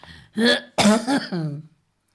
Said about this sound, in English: I've got that darn cough back. Don't seem to be able to kick it.